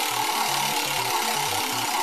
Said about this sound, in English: Let's go ahead and spin that Wheel of World Building.